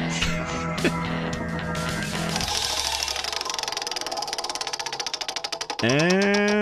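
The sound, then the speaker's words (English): A prize wheel spinning: a steady run of ticking clicks follows a droning tone, and a bright, sustained tonal sting ends the run. “Are you ready to spin the wheel and see what we're going to talk about? Let's spin this wheel.”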